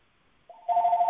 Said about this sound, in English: I'm sorry for the phone going off here